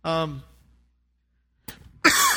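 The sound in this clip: A person coughs: after a brief voiced sound and a pause, a couple of short, harsh, noisy bursts come at the end.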